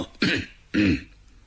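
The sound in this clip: Storyteller imitating dry coughing with his voice, two short, forceful throat-clearing coughs separated by a brief pause, fairly loud against a quiet background.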